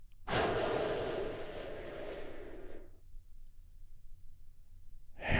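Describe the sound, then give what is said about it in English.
A big, deep breath taken during a guided relaxation exercise, a long airy rush lasting a few seconds, followed by near silence before another breath begins at the end. “Join me in taking a big, deep, healing breath right now.”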